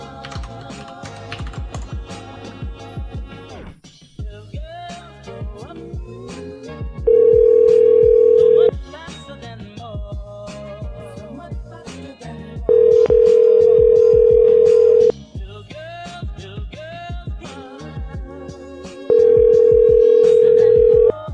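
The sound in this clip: A phone call to a business number is dialed and rings: quick keypad clicks lead into three long, steady ringback tones spaced a few seconds apart.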